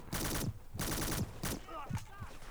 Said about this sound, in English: Not if you keep getting shot at like that.